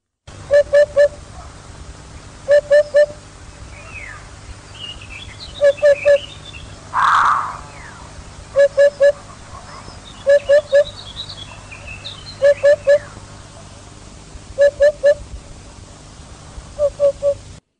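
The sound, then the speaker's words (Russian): A hoopoe calls in a forest with hollow, low hoots in three-note groups. Eight evenly spaced groups repeat steadily over faint chirps from other birds. “Удод.”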